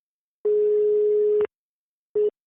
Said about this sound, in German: Wenn Sie erlauben, werde ich ihn jetzt anrufen.